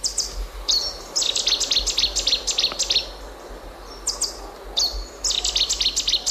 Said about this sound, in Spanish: Este es el ruiseñor bastardo, que tiene así un nombre como muy, ¿no?